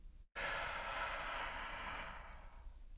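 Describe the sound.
A long, deep breath drawn in to expand the belly, demonstrated for belly breathing: one steady, airy inhale that starts abruptly after a brief pause and slowly fades.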